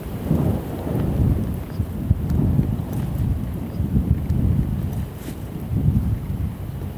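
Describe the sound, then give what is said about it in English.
Wind roars at the summit of Cho Oyu, 8,201 meters, in Tibet, a steady, dense low rumble of buffeting gusts with no break. “This is sound from the summit of the sixth highest mountain in the world.”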